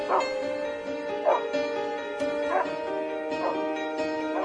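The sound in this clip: Dogs bark in a few short yelping bursts at fairly regular intervals, moderately loud over a sustained tonal drone.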